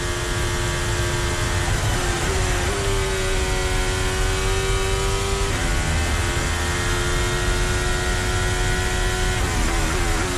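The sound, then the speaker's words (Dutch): A Ferrari Formula 1 car engine heard onboard, a loud, continuous high-pitched buzzing roar that holds throughout, with a few abrupt steps in pitch. “Ook weer even luisteren bij Ferrari.”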